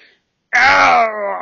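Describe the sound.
A human voice imitating a wounded deer whimpering on the ground after being shot: one drawn-out, loud, moaning whine of about a second with a strained, harmonic tone, easing slightly in loudness toward the end.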